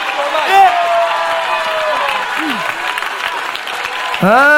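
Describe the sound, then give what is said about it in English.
A church audience stands to clap its hands and shout praise: a dense, continuous wash of clapping beneath loud, overlapping voices that carries through the whole stretch. “If you would stand up and clap your hands and begin to shout, thank you, Jesus.”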